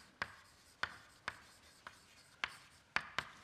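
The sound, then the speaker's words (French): Writing an equation on a board during a physics lecture: seven sharp, separate taps and strokes, spaced unevenly over a few seconds, with quiet gaps between them and no talk. “une équation qui s'appelle l'équation de Fokker-Planck, que je vais écrire ici”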